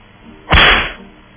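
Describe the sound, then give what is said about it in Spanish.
A single whip-lash sound effect, one sharp loud burst that cuts in and quickly fades. “Los peores de hoy, ahí están. Latigazos para ellos.”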